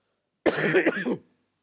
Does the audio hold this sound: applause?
no